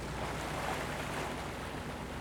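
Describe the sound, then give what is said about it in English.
Steady ambient hiss and low rumble on the bridge of the U.S. icebreaker Nathaniel B. Palmer as it cruises slowly along the coast of Antarctica, faint and unchanging, with no voices. “I'm on the bridge of the Nathaniel B. Palmer, a U.S. icebreaker that is slowly cruising along the coast of the coldest and most remote continent on Earth, Antarctica.”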